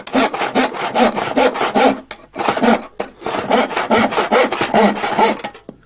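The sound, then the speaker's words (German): A hand saw cuts through wood in a carpentry workshop with many quick, rhythmic rasping strokes. Two short pauses break the strokes, and the sawing sounds alone. “wo wird auch viel mit Holz gearbeitet? In einer Schreinerei. Genau, da hören wir mal rein.”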